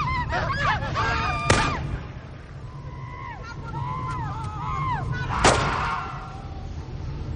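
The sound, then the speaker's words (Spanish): Gunshots ring out as a rebel fighter shoots a woman in a village during an ethnic-cleansing scene: two sharp, loud cracks about four seconds apart over a steady bed of honking bird calls and low rumble. “donde un guerrillero rebelde dispara a una mujer”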